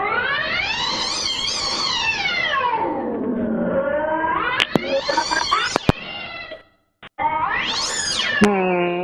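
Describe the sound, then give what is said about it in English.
An unhappy cat yowls in three long, drawn-out meows with sweeping pitch, the first rising and then sliding low. The yowls are loud and heard alone, with a few sharp clicks. “Whose cat is that? He doesn't seem too happy.”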